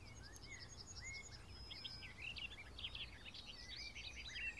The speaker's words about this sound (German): Also dieser Vogel hält gerade nichts zurück. Er singt und singt und singt.